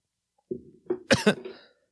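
Sudden harsh coughing from someone who has just inhaled a bug. Four short, rough bursts grow stronger, with the last two loudest, followed by a faint breath.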